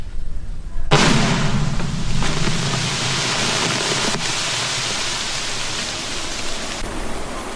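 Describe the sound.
An explosion destroys weapons buried in a pit dug in thick Sri Lankan jungle during mine clearance. A sudden loud, broad blast is followed by several seconds of sustained rushing roar that stays steady until it cuts off.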